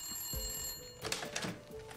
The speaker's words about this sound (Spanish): Desde la finca donde fue hecha la llamada del aniversario, llamaron a los Jaeger.